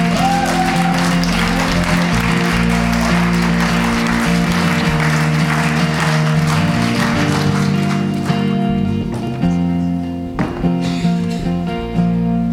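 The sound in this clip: Audience applause welcoming a speaker at a church: sustained, loud clapping over held musical tones, thinning out toward the end.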